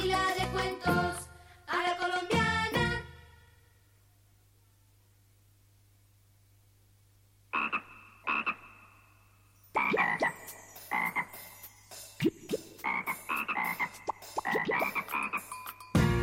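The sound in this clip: Frog croaking in rough, rattling pulsed calls: a cluster of loud croaks, a quiet stretch with only a steady low hum, then croaks returning and building into dense, overlapping calling.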